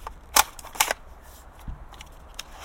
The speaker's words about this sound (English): So this is the sound of me folding... Oh, no, turning it off, actually. Folding up the metal detector now that it's turned off.